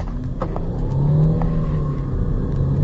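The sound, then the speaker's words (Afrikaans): A 180 kW diesel sedan accelerates hard with a deep, steady engine rumble and a rising drone that swells midway through. “Versnelling is fenomenaal vir 'n diesel sedan. Hierdra ek kom nou weg.”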